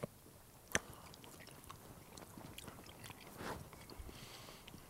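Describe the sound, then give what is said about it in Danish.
Faint biting and chewing of salami at a picnic wine tasting: one sharp bite near the start, then soft, irregular crunching and mouth sounds. “Nu prøver jeg lige med noget salami her.”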